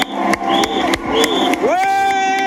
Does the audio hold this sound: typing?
no